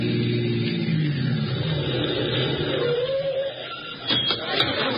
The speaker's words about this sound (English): intermission turned out to be just long enough for Ellery Queen and Nikki to hail a cab, hop into same, and head for 36B Washington Square North, the scene of the crime. We pick them up as they swing around the lower Fifth Avenue corner of Washington Square.